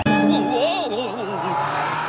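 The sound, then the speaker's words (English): Squealing tires and a roaring engine from a speeding cartoon car: a loud, wavering squeal that swings up and down in pitch over a steady engine drone, holding for about two seconds. “Jeepers! Slow down! I'm the one who's supposed to be driving.”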